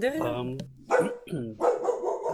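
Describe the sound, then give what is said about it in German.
A dog barking, with a few loud, harmonic barks and yelps in quick succession separated by short gaps. “jetzt wird der Hund bellen”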